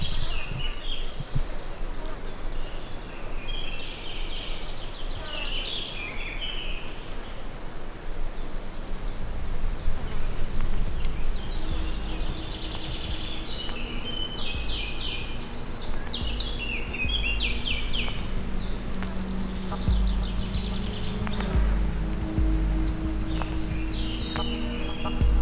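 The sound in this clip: Mountain pond ambience alive with insects and birds: dense, continuous cricket chirring fills the air, with scattered high bird chirps and a low steady rumble beneath.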